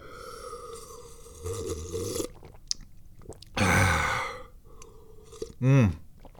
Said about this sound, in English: Such good tea. It's delicious. I can't stop drinking it.